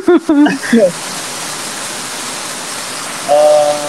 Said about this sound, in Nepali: कत्रो पानी पर्यो त्यहाँ कत्रो आवाज आएको